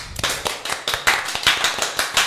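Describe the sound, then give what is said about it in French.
Audience applause after a small show by a group of artists: dense, steady clapping with many sharp overlapping claps, fairly loud and continuous for the whole clip, with no talk over it. “Vous pouvez vous applaudir.”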